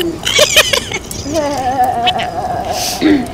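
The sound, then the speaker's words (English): People imitate a cat with their voices, making a few drawn-out, wavering meow sounds that rise and fall in pitch. “instead of the bro thing, we'll go, meow, meow, meow.”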